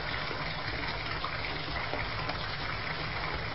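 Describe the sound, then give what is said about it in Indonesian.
Warm water gushes from a tap into a bathtub in a steady, continuous rush that holds at an even level throughout. “Air hangat di bathtub sudah penuh. Aku lalu mematikan keran airnya.”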